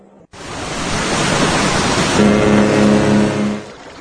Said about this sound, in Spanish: La escena se desarrolla en un crucero en pleno océano Atlántico.